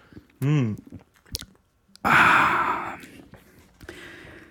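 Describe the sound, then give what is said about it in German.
A sip of dark lager, Isoma Dunkel, with wet mouth and gulping noises, a short voiced breath, then a louder breathy exhale after swallowing. Softer mouth sounds trail off at the end. “Ja, aber pro Bier, ich nehme mal einen Schluck, warte. Ja, tue ich auch mal.”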